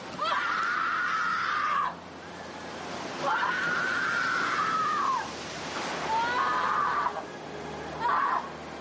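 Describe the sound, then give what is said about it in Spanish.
A young woman screams desperately on the seashore in a few long, loud, high cries broken by short gaps, over constant surf noise. “La joven grita desesperada mientras él agoniza en la orilla del mar.”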